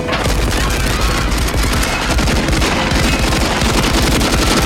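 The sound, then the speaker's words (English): Dense, loud automatic gunfire in an action film shootout, a man firing up at a banking helicopter from a rooftop pad, with rapid continuous bursts and booming shots filling the whole stretch without pause. “John stops firing and runs right off the pad.”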